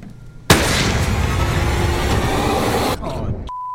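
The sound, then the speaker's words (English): A gunshot rings out in the film Ready or Not: a single abrupt, loud blast followed by a long roaring wash of noise that drops to a quieter tail and ends on a steady tone. “Oh, you shot the maid.”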